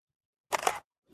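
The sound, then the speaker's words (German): A single camera shutter click as a photo is taken of a path on a walk up the Marienhöhe: one brief, sharp burst standing alone in silence. “Muss jetzt auch schnell noch ein Foto machen vom Weg, der”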